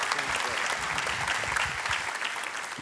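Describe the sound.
Church audience applauding to welcome a pastor who is about to preach. The clapping is dense and continuous, holding a steady level from start to finish.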